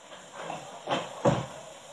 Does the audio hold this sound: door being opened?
yes